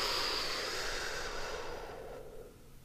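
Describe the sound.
A deep exhale through the mouth during a belly-breathing exercise, heard as one long, breathy hiss that starts strong and slowly fades away.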